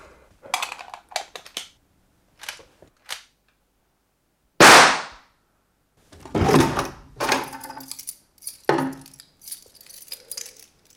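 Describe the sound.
A locked door in a bank director's room is worked open with scattered clicks and metallic rattles. One loud, sharp crack stands out near the middle, followed by further bursts of rattling and scraping.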